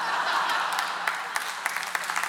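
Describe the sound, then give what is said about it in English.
Audience applause after a singing performance, a dense wash of clapping that thins into scattered individual claps toward the end. “I think you're clapping those people, not me.”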